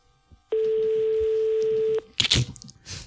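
A single long, steady telephone ringback tone on an outgoing call: a flat, mid-pitched tone lasting about a second and a half, followed by brief scraping noises.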